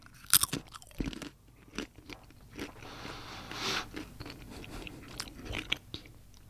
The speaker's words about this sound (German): ich habe jetzt von ihm eine Walnuss in die Hand gedrückt bekommen, also eine geschälte, das ist nur das Innenleben und ich esse jetzt.